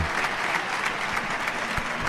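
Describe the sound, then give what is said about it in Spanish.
A crowd rises for a standing ovation in a bullring during a bullfight, filling the air with dense, continuous clapping from many hands that holds steady and loud throughout, without clear voices. “La gente en pie. La gente en pie. Qué ovación.”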